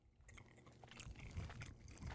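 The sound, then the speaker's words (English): Pizza being eaten close to the microphone, ASMR style: quiet, soft crunching bites and chewing in a few irregular bursts. “What are we doing? Eating pizza on camera. ASMR.”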